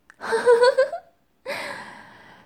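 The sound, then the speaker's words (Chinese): A sharp, gasping breath drawn in, then after a brief pause a longer, softer breathy sound that slowly fades away. “吸气，吐气，吸气，吸气，吸气。吸，”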